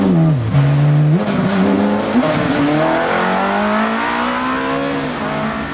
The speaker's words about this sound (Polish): Trzej panowie jadą autem.